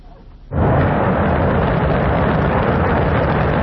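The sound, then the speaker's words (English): China's Shenzhou 23 rocket, carrying three astronauts, blasts off from the Jingguan Launch Center in Inner Mongolia: after a short quiet, a powerful, dense rumbling roar erupts and holds steady and loud. “That's the sound of China's Shenzhou 23 rocket blasting off on Sunday from the Jingguan Launch Center in Inner Mongolia.”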